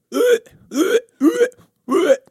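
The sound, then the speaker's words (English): A voice imitates double hiccups, producing four sharp, voiced yelps spaced about half a second apart. Several yelps have a doubled peak, giving each one a quick two-part catch. “But I get hiccups at night and there's nothing worse than hearing me because, like, I get the double hiccups because I'm shaped like Winnie the Pooh”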